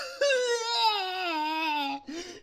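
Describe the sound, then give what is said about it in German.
A voice performs a person crying: one long, wailing sob whose pitch slides steadily downward, followed by a shorter, quieter second sob. “Darauf folgte eine weitere Ohrfeige und Atreo fing an zu weinen.”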